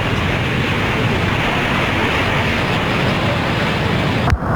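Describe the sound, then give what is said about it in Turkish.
Floodwater rushes through the streets of Keşap in heavy rain as a dense, unbroken roar that stays loud and even throughout, ending with a brief click. “Keşap sel altında. Arabalar gidiyor Allah'ım, inşallah işi boştur yarabbim ya.”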